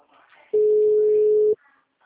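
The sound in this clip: A telephone ringback tone sounds while a call waits for a client to answer: one steady, loud, unchanging tone lasting about a second, with faint voices before and after it.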